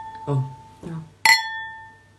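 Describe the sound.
Glasses clink together in a toast: one bright, ringing clink that sustains and slowly fades, after two short vocal sounds.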